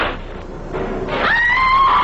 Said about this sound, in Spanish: Gritó la chica. Ha de estar en grave peligro.